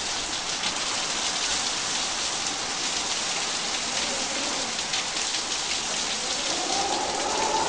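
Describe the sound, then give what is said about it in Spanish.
Steady rain falls in an unbroken, even hiss that stays at the same loudness throughout, with no voices and no thunder. “¿Qué tiempo hace? Está lloviendo.”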